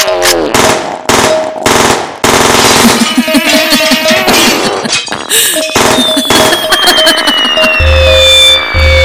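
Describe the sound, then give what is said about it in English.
Machine gun fire in rapid, loud, dense bursts, with ringing metallic clinks and clatter mixed in as the shooting continues. “I want everyone standing near me and my machine gun to die right now.”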